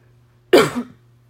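A throat clearing merging into a brief cough: one rough, fairly loud burst under a second long, standing alone over a faint low hum.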